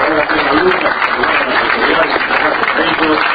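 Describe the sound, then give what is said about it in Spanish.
Audience applause for a government undersecretary at a ceremony handing out subsidies and certificates to community radio stations. Dense, steady clapping fills the whole stretch at an even loudness, with voices mixed in. “agradecemos la presencia de la señora subsecretaria de Organización de Ingresos Sociales, doña Mariana Sosa, un aplauso para ella”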